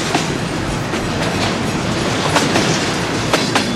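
A freight train rolls past, a loud, dense, continuous rumble with rhythmic clickety-clack from the wheels on the rails and no voices.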